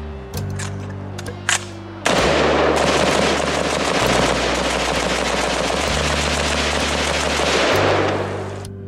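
Rapid gunfire from a semiautomatic 5.56 rifle: a few sharp cracks at first, then a long, dense stretch of crackling shots over a steady low hum.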